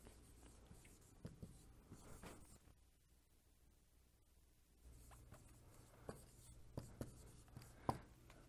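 Handwriting on a board: faint, scratchy strokes come in short runs, pause briefly in the middle, then return with a few sharper taps.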